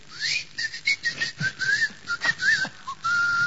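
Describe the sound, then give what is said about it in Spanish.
A person whistles a string of short, high notes that slide up and down in pitch. It ends on a longer, steady held tone, with no talking. “Y pega un chiflido”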